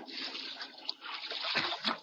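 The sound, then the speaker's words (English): Water splashes and sloshes as a person swims toward a boat, a continuous moderate wash with a couple of sharper splashes near the end. “Here I am with the boat. Swim over this way.”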